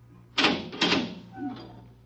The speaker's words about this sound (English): The door.